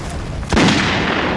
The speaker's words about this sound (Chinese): 准备射击。